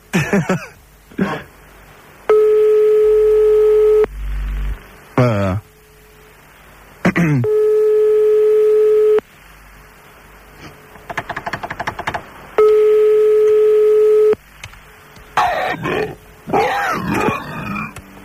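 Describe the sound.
Telephone ringback tone while waiting for someone to pick up: three long, steady, evenly spaced tones, with a person talking impatiently in the gaps between them.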